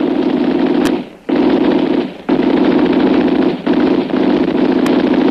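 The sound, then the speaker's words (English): Loud machine gun fire rattles in long, rapid, continuous bursts, broken by a few brief pauses, with no voices. “He fired too high.”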